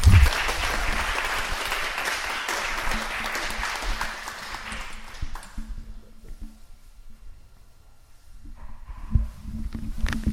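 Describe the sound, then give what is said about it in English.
An audience applauds to welcome a speaker at an evening festival gathering, a dense, sustained clatter of clapping that fades after about five seconds into a quieter stretch with a few faint sounds. “And once again, let's give him a warm welcome.”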